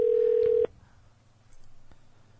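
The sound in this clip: A telephone tone as a call is dialed: one steady, fairly loud electronic beep lasting just over half a second, then a faint background hum with a few small clicks.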